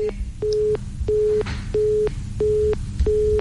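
A telephone busy tone sounds after a dropped call: a steady series of short, evenly spaced, mid-pitched beeps with brief gaps between them, repeating throughout over a faint background hiss.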